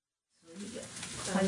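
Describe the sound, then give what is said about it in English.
A sudden loud sizzle as boiled vegetables drop into a hot frying pan in a small Chinatown kitchen in Boston, rising quickly to a steady, bright hiss. “In a small kitchen in Chinatown, Li Feng Li is making lunch. Artist Yolanda Yang watches as Li puts some boiled vegetables into a hot frying pan.”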